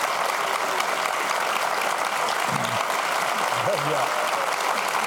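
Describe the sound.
Steady applause from a studio audience at a television taping, continuous and even throughout, with a voice briefly heard over it.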